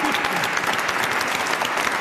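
Audience applause: dense, steady clapping fills the whole stretch at an even, fairly loud level, with no breaks between the claps.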